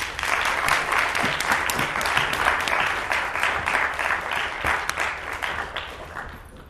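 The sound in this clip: Audience applause welcoming a professor before a talk on Chekhov: dense, steady clapping that holds at an even level throughout, then thins slightly toward the end.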